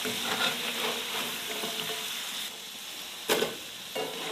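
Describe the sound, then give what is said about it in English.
Steady sizzle of boiled food dredged in flour frying in a pan, a continuous bright hiss that holds throughout, with a brief louder burst near the end. “A little flour. There we go. Now that's a fry.”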